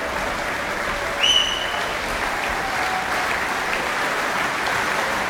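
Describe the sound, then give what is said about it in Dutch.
Enthusiastic applause from an audience of about 400 for a string quartet after Beethoven string quartets at the opening concert of the Zeister Muziekdagen. Dense, steady clapping continues at an even level throughout, with no talk. “ik schat inderdaad zo'n 400 man, blijft enthousiast klappen. En hoopt dat het kwartet nog een keer terugkeert.”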